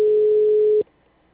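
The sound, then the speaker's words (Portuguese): A telephone busy signal: a single steady mid-pitched tone holds for under a second, then cuts off abruptly into near silence. “O número chamado não está disponível no momento. Alô? Por favor, tente mais tarde. Obrigado. O número está ocupado.”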